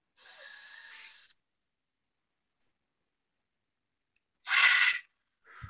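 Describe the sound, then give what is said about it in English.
During a guided breathing exercise, a deep breath is drawn in through the nose as a steady airy hiss of about a second. After roughly three seconds of silence comes a shorter, louder breathy exhale. “let's just take the deepest breath we've taken all day in the nose and then exhale it.”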